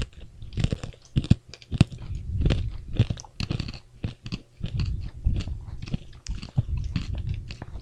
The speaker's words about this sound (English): Chocolate filled mint flavored candy. Chocolate filled dinner mints is what they are.